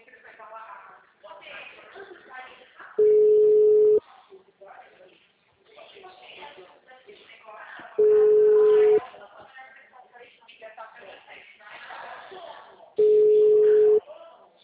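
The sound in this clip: A telephone call rings out with three long single-pitched ringing tones, evenly spaced about five seconds apart, while people talk between and around them.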